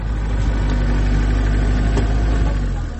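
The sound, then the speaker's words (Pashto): Engine of a geared off-road vehicle travelling along a rough road, a loud, continuous low rumble that holds steady and fades slightly at the very end. “زه همدا اوس په یو کوم ګیره لرونکي موټر کې د یادې لارې په اوږدو کې هغه سیمې ته ورځم”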